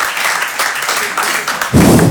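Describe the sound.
An evening audience applauds to show optimism, with fairly steady clapping that surges noticeably louder for the final half second.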